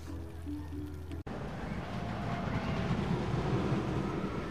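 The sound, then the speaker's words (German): A wooden roller coaster rumbles on continuously. A low humming section ends in a sharp, momentary break, then a steady, dense, rushing roar of the running ride carries on to the end at an even level. “Was Sie dort hören im Hintergrund ist ein wilder Werwolf, den wir, können eigentlich mal von hinten anfangen, den wir gerade gefahren sind. Ein Holzachterbahngerät aus dem Hause Feldkoning Maschinefabrik”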